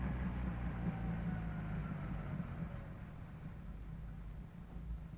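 Steady low engine rumble from inside a car driving through heavy snow, a smooth continuous drone that stays fairly even throughout with no other clear sounds.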